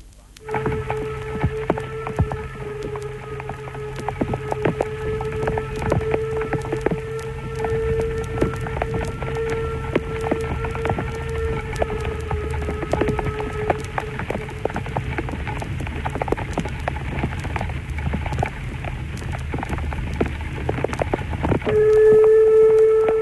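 Steady pouring rain hisses over a low mechanical hum as a narrow-gauge locomotive hauls a passenger train on the Trans-Harz line between Elend and Sorge. Many small clicks run throughout, and the sound grows louder near the end.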